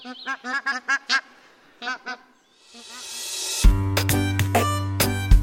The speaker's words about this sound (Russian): А еще гуси гогочут, когда летят. Вот так вот.